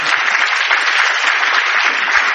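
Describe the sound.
Applause for an organization's board chairman: a steady, dense roar of many hands clapping at a constant loud level throughout, with no voices breaking through.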